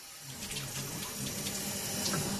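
Water runs from a sink faucet during a flow-rate test, a steady, unbroken rushing hiss with no other sounds.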